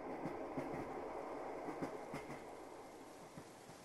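Train wheels clack over rail joints beneath a steady, dense rumble of a moving train, the sharp clicks recurring at a fairly regular rhythm throughout.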